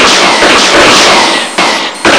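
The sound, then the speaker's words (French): Gunshot blasts as a robot fires at pots: a loud, dense noisy burst followed by two sharp, abrupt hits. “ton tas de ferraille vient de tirer sur mes pots de caméléon.”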